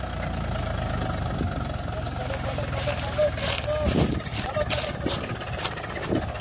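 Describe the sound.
A tractor engine labors in high gear while pulling a trolley, a steady low knocking drone with rumbling clatter and voices at times over it.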